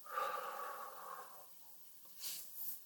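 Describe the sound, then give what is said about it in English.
Slow breathing in and out, faint and airy, with a soft exhale followed by a quieter intake of breath. No talking. “Breathe out. Breathe in. And breathe out.”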